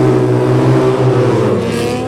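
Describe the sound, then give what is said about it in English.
Sidecar racing outfits, including an 800cc Triumph Westlake machine, roaring away together at a mass start in a final race: a loud, sustained engine drone with layered revving tones that continues throughout. “If you've never seen a sidecar mass start, stand by. Here we go, sidecars, final race of 2026.”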